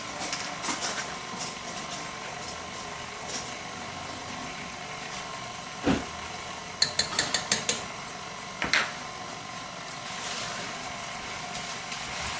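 Electric mixer combining cookie cake dough after baking soda, salt and vanilla go in: a steady, fairly quiet motor whirr with a faint tonal hum, broken by a few sharp clattering clicks near the middle, with no talk.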